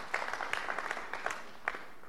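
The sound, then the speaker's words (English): An audience claps hands during a church service, a faint, continuous patter of applause with a few sharper claps standing out, and no talking over it. “Okay, now, take your hands down. Give yourself a hand clap.”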